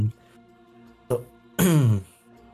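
A single sneeze during an online tabletop game session: a short breathy intake, then a loud, sharp burst with a falling voiced tail, set against a steady low tonal background.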